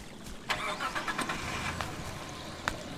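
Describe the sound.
A car engine starts and runs at a moderate-to-faint level, the steady low rumble broken by a few brief, sharp bursts near the start and one near the end. No one speaks.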